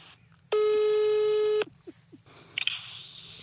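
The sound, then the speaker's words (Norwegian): A telephone call being placed to the newspaper VG: a steady ringing tone for about a second, then faint short bursts and a brief, higher electronic beep. “Vi må bare ringe VG sist, da.”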